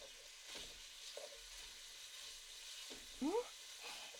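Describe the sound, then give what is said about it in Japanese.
Meat frying in oil makes a faint, steady sizzle, with a few soft stirring knocks and scrapes scattered through it. “油でお肉を炒めるだけで、いい匂いがしてくるよね。”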